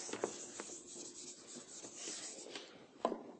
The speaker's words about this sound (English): I'm going to erase my little mark up here.